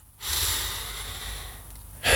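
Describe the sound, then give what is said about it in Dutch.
A long, audible inhale: a steady, breathy rush of air lasting nearly two seconds, fairly loud, followed by the start of another breath at the end. “Adem in.”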